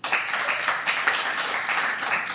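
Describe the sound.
Audience clapping at a college campus event, a dense, steady patter of many hands that holds at an even level for about two seconds.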